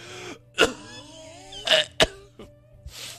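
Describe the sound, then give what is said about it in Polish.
A man coughs a few times, with short, harsh, throaty bursts and brief pauses between them, alone with no talk. “Niestety, no, znów się rozkasłałem.”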